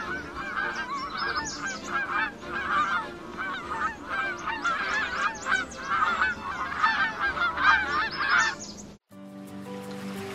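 Geese honk in a dense, noisy chorus of many overlapping calls for about nine seconds. The honking cuts off abruptly near the end, and a different, lower sound briefly follows.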